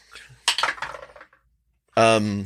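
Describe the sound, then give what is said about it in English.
Dice clatter across a surface for a tabletop role-playing game check, a quick run of rattling, bright knocks that dies away, followed by a voice. “How good are these sketches, though? Let me roll.”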